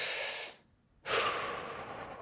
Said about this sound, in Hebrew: זהו. נשימה. אוקיי. לשמור אותה רגע בפנים, אוקיי? ולנשוף אותה החוצה.